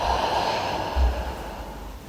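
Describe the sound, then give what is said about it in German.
A deep breath in and out during a relaxation exercise, heard as a soft, airy rush of breath lasting about two seconds. “Wir atmen tief ein und lassen los, wo wir Anspannung fühlen.”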